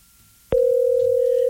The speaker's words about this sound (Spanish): déjeme contestar la llamada para que no se nos vaya a ir otra vez